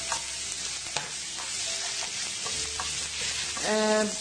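Tomato paste and meat fry in a pan with a steady, bright sizzle, broken by scraping stirs throughout.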